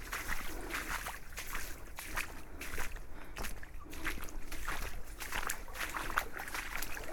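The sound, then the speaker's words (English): Footsteps wade along a flooded field path, a steady stream of sloshing and splashing water with each stride, continuous and fairly loud throughout. “And I can see the next gate, and usually after the gate is the bit that's most flooded. And considering I've just walked through what I'm hoping you can hear,”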